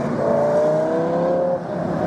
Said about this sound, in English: Lamborghini. That sounds good.